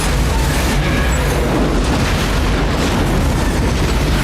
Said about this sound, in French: Donc, il va se rendre là et ça va péter. Et je vous demande de noter la puissance de l'explosion.